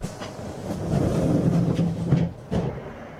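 A train running on rails on a journey toward The Hague in the Netherlands gives a steady low rumble, with a few sharp knocks and clatters rising above it.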